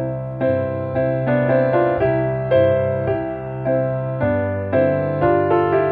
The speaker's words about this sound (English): we have the left hand broken up and the right hand being played as a third, and it sounds this way.